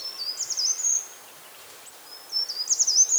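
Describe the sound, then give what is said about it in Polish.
Short-toed treecreeper singing, two brief, high, thin phrases of sharp notes separated by a short pause, clear over faint background hiss. “Jeśli chodzi o głos, śpiewa za mną cały czas. Udało się znaleźć pełzacza ogrodowego.”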